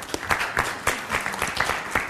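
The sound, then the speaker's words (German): Applause from an audience at a live talk and discussion: scattered, irregular hand claps from a handful of people, moderately loud and brief, with no voices over it. “Ein Applaus für meinen Retter, bitte.”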